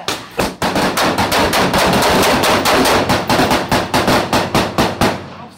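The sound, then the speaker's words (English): Rapid gunfire, a long, loud burst of many shots in fast succession after a short pause near the start, loosening into separately spaced shots toward the end. “Shots fired. Hey, anybody hit?”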